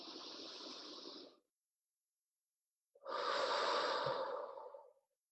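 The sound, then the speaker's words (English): Deep breathing during a guided healing meditation: two long, soft, airy breaths, each lasting over a second, separated by a silent pause, the second fuller and louder than the first. “Breathe in.”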